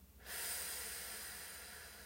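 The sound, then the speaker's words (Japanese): A single long, slow exhale during a relaxation breathing exercise, breathed out while smiling. A soft, airy hiss starts abruptly after a brief pause and holds steadily, fading only slightly as the breath runs out. “吐き切るまた吸ってゆっくり笑顔のまま吐きます”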